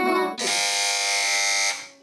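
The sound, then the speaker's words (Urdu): A quiz show buzzer is pressed by a team, giving one loud, harsh electronic buzz that holds steady for just over a second and then cuts off. “جی تو اس بار سب سے پہلے buzzer بجائی ہے team B نے”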